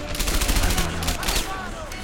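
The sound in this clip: Rifle gunfire in a video game: many sharp shots fire in rapid succession for over a second, then thin out, with voices talking alongside the shooting.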